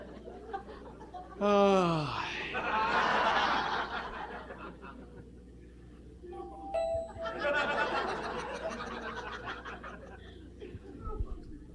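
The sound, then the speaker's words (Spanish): A short doorbell-style ding rings out at a live comedy show, sounding over scattered audience laughter and chuckling. “Y ahí está el timbre, mira.”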